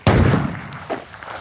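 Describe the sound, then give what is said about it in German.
A loud rifle shot fired from a prone position on a mat at a shooting range. One sharp blast with a rumbling decay, followed by a weaker knock. “Nachher legt man sich auf eine Matte, bringt das Gewehr in Position und zielt. Trotz Gehörschutz blasst es einem fast weg.”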